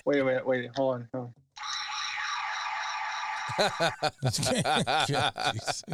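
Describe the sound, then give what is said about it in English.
A sustained, buzzy electronic tone likened to the Ultraman beta capsule sound effect, set off by hitting a control in a guitar pickups discussion, holds steady for about two seconds, with chuckling and laughter before and after it. “Sounds more like an alarm. Like, oh my god, somebody's going wrong. Breaking into your car. You know what that was? That was the Ultraman beta capsule sound.”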